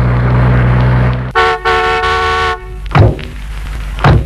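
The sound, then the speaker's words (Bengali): A car arrives at a house: a low engine rumble gives way to a long, slightly broken horn blast, followed by two dull thuds. “ওই তো গাড়ির শব্দ বুঝা গেল দেখছি আমি”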